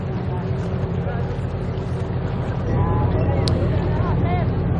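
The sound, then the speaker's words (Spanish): Maritime rescue boat approaching at sea at night: a steady low engine drone with wind-like noise, growing slightly louder partway through, with faint tonal whistles above. “De noche, un barco de salvamento marítimo se acerca.”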